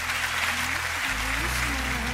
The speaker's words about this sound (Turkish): Alkışlıyoruz.